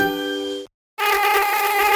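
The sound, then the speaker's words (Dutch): Mosquitoes buzzing in a house: a loud, whining harmonic drone that cuts out into brief silence, then resumes and holds steady, with no voices. “Ah, weer die klote muggen in huis.”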